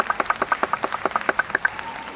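Light applause follows a performing act, made of sparse, distinct claps from a small number of hands. The clapping is quick and fairly quiet, with individual slaps clearly separated across the short stretch.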